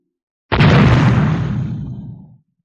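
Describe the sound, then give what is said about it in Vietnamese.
An artillery shell over 100mm in caliber explodes on a frontline position: one loud, sudden blast whose deep rumble decays over roughly two seconds before cutting off. “Một viên đạn pháo đường kính trên 100mm điên cuồng bắn vào trận địa tuyến đầu.”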